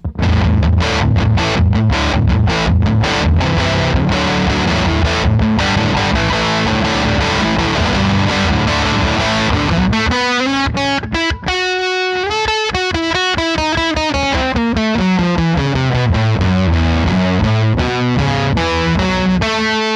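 Electric guitar through a distortion pedal with the drive turned all the way up, loud and gritty: chopped, chugging chords first, then sustained fuzzy notes that bend and slide in pitch.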